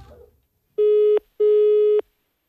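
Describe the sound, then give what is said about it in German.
Ringback tone of an outgoing phone call to Kent: two steady, mid-pitched electronic tone bursts in a double-ring pattern, the second slightly longer, sounding alone without voices after a brief rustle. “kann ich mal ein Gespräch nach Kent führen?”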